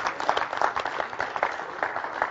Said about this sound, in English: Give him a hand clap if you love the Lord tonight.